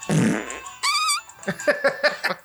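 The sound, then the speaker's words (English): Fart sound effect from a button: a loud, rasping noisy blast followed by a wavering squeaky tone, then a few short pulsing bursts. “We have fart buttons. Yeah, we do have a fart button. See?”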